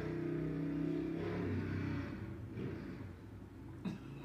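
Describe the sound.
A motorcycle drives past, its mid-pitched engine droning loudly at first, then gradually fading away with no talk.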